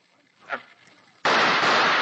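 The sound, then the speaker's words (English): A gunshot in a radio drama bursts in abruptly and loud after a quiet stretch with a faint earlier sound, its harsh blast filling the rest of the moment. “Then I'll have to shoot anyway. That takes care of you, Lefty.”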